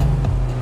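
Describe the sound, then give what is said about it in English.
A new, sporty Skoda Octavia RS being driven, heard as a steady, loud, low engine rumble throughout the short moment. “Here's Anto driving home in his new sporty Octavia RS.”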